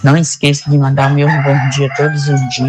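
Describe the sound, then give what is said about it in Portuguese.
A rooster crows under a person's steady talking, the call blending into the voice and never heard alone. “Olha o galo cantando. Olha aí.”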